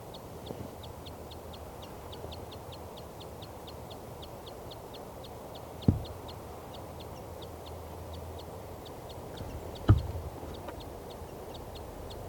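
Rapid, high, evenly spaced toots come from a female bird on her nest answering her mate, a long faint series repeating steadily, broken by two brief thumps.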